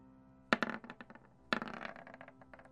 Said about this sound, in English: So go ahead and raise your temporary modifier on the melee check by 2, and then click it for me.